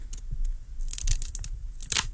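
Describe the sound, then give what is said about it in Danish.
A thick hand-rolled cigar being clipped: a handful of crisp, dry snips and crunches with crinkly rustling between them, the sharpest and loudest cut coming near the end. “Den er meget tyk, så nu skal jeg lige se, om jeg overhovedet kan få den klippet.”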